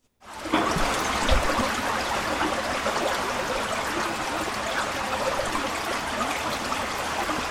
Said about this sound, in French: C'est l'eau du baptême. Enfin, oui. C'est le ruisseau, là. C'est le Jourdain.